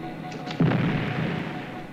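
A dynamite blast goes off as a single muffled boom that rumbles on at a low level afterward.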